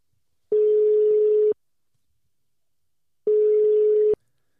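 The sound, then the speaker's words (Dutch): A telephone ringback tone sounds while a call is placed, two steady, even-pitched tones of about a second each separated by a silent pause. “We gaan hem bellen.”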